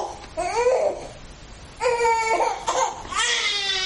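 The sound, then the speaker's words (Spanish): A baby cries on a sofa in several fussy, wailing bursts separated by brief pauses. The later cries come stronger and more strained, with no talk over them. “El bebé llora en el sofá.”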